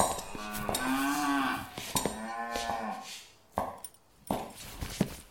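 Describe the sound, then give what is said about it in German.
Cattle lowing in a barn: two long, deep moos, one after another, followed by a few short thuds and rustles. “ich glaube, hier liegt noch ein Rind.”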